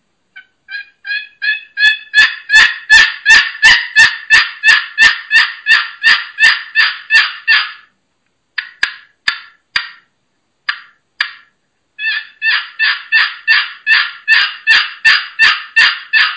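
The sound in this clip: A Pollard box turkey call is played by hand, giving a long series of raspy, gobble-like yelps. The yelps start soft and build into a fast, loud, even rhythm, break into a few scattered notes, then resume as another steady run.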